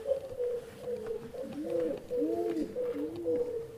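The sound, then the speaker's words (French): Pigeons coo in soft, low, rolling phrases, a courting pair repeating the call steadily without a break, over faint background noise. “Des pigeons se bécoter, n'est-ce pas? Oui, ce sont des oiseaux d'une fidélité sans faille.”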